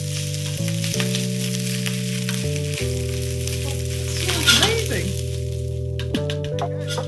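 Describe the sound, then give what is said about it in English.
Food sizzles in a hot pan with a steady hiss. Midway there is a brief flurry of stirring and scraping, all over a constant low droning tone. “Okay, and then give it a little stir.”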